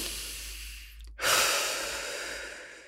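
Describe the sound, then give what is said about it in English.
A deep breath, drawn as one long, breathy rush of air that begins abruptly after a brief hush and slowly tapers off, with no talking. “I want you to take a deep breath.”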